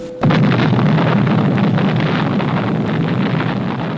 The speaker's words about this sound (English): This bomb has a strength of 20,000 tons of TNT. It is a harnessing of the basic power of the universe.